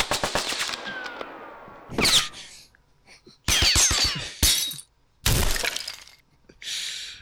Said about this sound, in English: That's Bullet Impact Body 1. This is Bullet Impact Body 2.